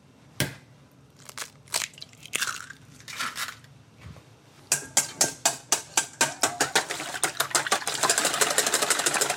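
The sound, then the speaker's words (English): Eggs are cracked and whisked for a breakfast sandwich. A few sharp cracks and taps come first, then quick, rhythmic clicking whisk strokes that grow faster and denser toward the end. “Meantime, I'm going to crack and whisk our eggs.”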